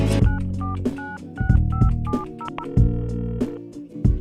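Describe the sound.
A telephone number is dialed with push-button keys: a quick run of many short beeping tones at shifting pitches, heard over a music track.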